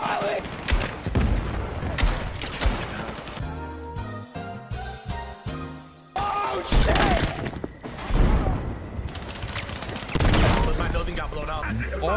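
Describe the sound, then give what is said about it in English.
A building collapses in a video game during a tank battle, with loud bursts of gunfire, shattering and crashing debris, while players talk and shout excitedly over the din. “You just broke our whole building, bro!”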